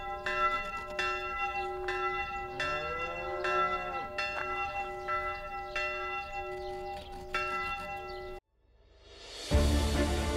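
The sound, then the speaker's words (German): Church bells ring from the tower of St. Michael in Upper Swabia with many overlapping, resonant strikes over a sustained humming tone. The ringing cuts off abruptly and gives way to a loud rushing noise. “Und vom Turm von St. Michael klingt es wieder für die nächsten Generationen über das oberschwäbische Land.”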